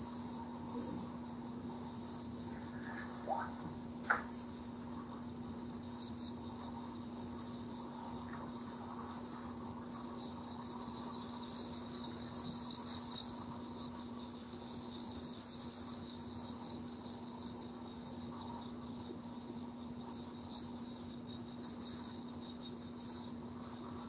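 Several kinds of crickets chirp together in a steady, continuous, faint trill that holds throughout with no talk.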